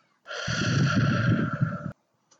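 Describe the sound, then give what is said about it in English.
A deep breath drawn in during a guided breathing exercise: one long, airy inhale of about a second and a half, heard over a steady tonal hum that stops with it. “Breathe it in.”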